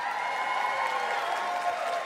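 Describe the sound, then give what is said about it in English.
Audience applause follows a joke: a steady, fairly faint patter of many hands clapping, mixed with light crowd cheering, continuous throughout. “Yes. Applaud that joke.”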